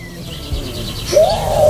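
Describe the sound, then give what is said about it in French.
A human voice imitating a pigeon's coo: a warbling, throaty call that bends up and then down near the end, over low background noise. “Attends, moi aussi je fais un pigeon.”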